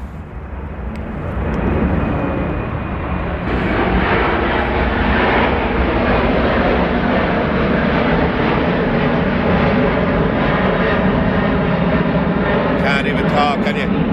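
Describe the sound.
Aircraft fly low over houses near a runway at Dublin Airport, a loud, sustained engine roar that builds over the first two seconds and then holds steady and heavy throughout.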